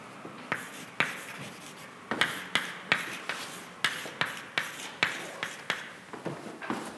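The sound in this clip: Writing on a board during a mathematics explanation: many short, scratchy strokes in a quick, uneven rhythm with brief pauses between bursts. No voices are heard.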